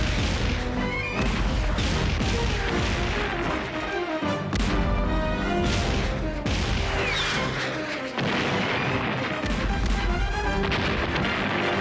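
Cannons fire during a pirate attack: many heavy booms and crashing impacts follow in rapid succession, loud and dense throughout with brief dips between volleys.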